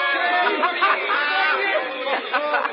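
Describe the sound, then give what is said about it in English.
Street crowds on the sidewalks during a parade-like procession, a steady babble of many voices chattering and calling out, held at an even level throughout. “All the street musicians and the crowds passing on the sidewalks as if it were a parade. All waving and cheering and calling to us.”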